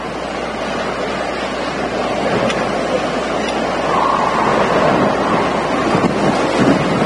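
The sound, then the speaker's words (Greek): Strong winds in a storm-hit area blast across a live reporter's microphone, producing a continuous deep rushing roar with low buffeting that swells slightly toward the end, with no voices. “Ακούμε και εμείς εδώ στο στούντιο τα μποφόρ, ακούμε τους ισχυρούς ανέμους που πνέουν στην περιοχή.”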